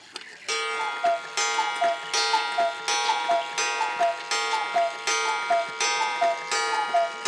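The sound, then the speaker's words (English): A new eight-day cuckoo clock with a half-hour strike, running fast, strikes ten: a steady series of bellows puffs paired with two-note cuckoo calls, regular and fairly bright, with quiet ticking between. “As I say, that's the new cuckoo. I'll let you hear it again, actually, because it doesn't go for very long, and I need to retime it anyway, because it's gained. This is it striking 10.”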